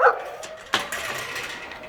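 Dogs barking in a parking lot, a few short, sharp barks and yips with a brief burst at the start and another partway through, alone without talk.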